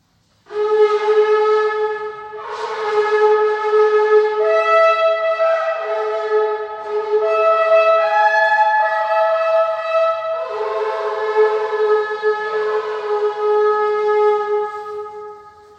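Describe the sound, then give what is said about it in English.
A large shofar, a ram's horn, blown in long, loud, brassy blasts rich in overtones. The tone shifts between several sustained pitches over about fifteen seconds with barely any break, then stops. “That is an impressive sound, I think. And it's an even more impressive shofar horn. It's larger than the ones I have here.”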